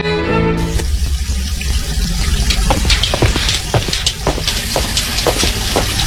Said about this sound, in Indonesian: Kok seperti ada suara air? Iya, Pak, benar. Itu mumpung air dari PDAM-nya mengalir. Jadi Ibu buka besar ya kerannya?